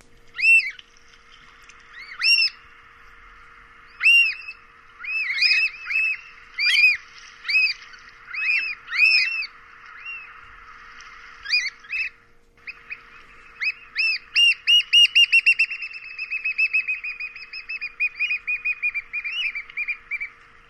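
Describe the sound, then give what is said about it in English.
Black oystercatcher queep calls from the Pacific coast of North America: loud, piercing whistled notes, first as spaced single calls, then as a fast rolling run that slowly trails off. “Their fun queep calls almost sound like children playing at the beach. See if you agree.”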